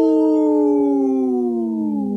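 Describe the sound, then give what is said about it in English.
Wolf howl, a single long tonal cry that starts strong and slides slowly downward in pitch. It sounds loud and clear, alone, with rich harmonics over about two seconds. “supported by Howling for Wolves, protecting wolves for future generations. Howl!”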